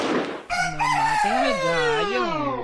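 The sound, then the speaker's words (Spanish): A rooster crows once: a loud, long, harmonic call with a wavering pitch that holds and swells before trailing off, following a short noisy burst at the start. “el gallo de Osvaldo, pobrecito, chico.”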